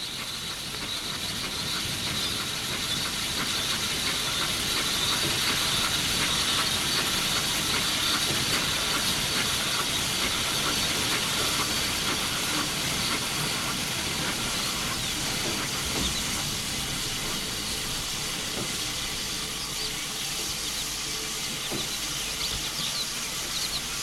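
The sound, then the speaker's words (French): Train arriving at a station platform: a long, steady wash of steam hiss and rumbling, with faint clanks and ratcheting noises scattered throughout and no voices. “Sont allés au quai et ont attendu le train pour Paris. Il n'y a que deux personnes qui attendent le train. Le train arrive.”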